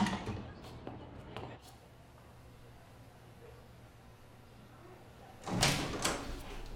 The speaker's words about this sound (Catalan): Els alumnes surten de l'institut i el conserge tanca les finestres.